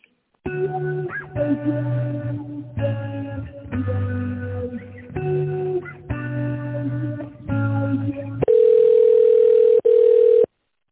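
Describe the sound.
Telephone line tones play while a call is transferred. A series of tonal, chime-like bursts with short gaps between them gives way to a loud, steady, single-pitched tone that breaks off once briefly.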